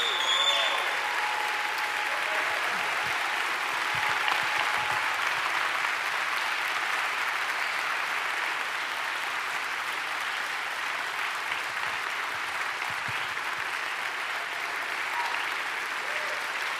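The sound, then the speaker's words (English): A church audience applauds and cheers to honour mothers, with a long, steady wash of dense clapping that stays loud and even throughout. “Come on, everybody. Make some noise in this place for every mom.”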